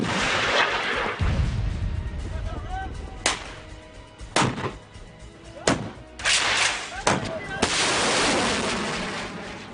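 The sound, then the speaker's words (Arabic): Artillery fire pounds a hill lined with militant bunkers and fortifications, several sharp, heavy booms striking at irregular intervals over a rumbling background. “أعطي الأمر لقواعد النار بالرماية على كامل امتداد التلة ومحيطها حيث تنتشر دشم وتحصيلات المسلحين.”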